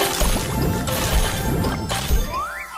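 Candy Crush mobile game sound effects: a busy run of smashing, clattering hits and bright chiming dings, ending with a whistle-like tone that rises and then falls.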